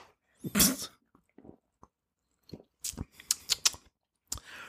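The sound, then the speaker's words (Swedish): A can of non-carbonated Moneybag soda is opened, with a loud sharp crack, a few small faint clicks, then a quick cluster of crisp metallic snaps and ticks, with no fizz. “Så här låter det när man sprättar en moneybag soda. Ingen kolsyra i.”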